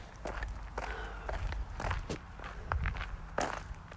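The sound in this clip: Footsteps of someone walking a dog outdoors: many uneven, crunchy steps with crackling texture, fairly close and clear, with no talking.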